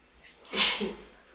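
A single, fairly faint sneeze bursts out during a religious lesson, a short, muffled, breathy explosion.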